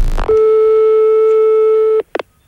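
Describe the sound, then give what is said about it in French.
A telephone ringing tone sounds as an outgoing call is placed to the gendarmerie. A single steady, mid-pitched beep holds for nearly two seconds, then stops, followed by a few faint brief clicks. “Eh ben moi j'appelle carrément la gendarmerie de police dans ce cas.”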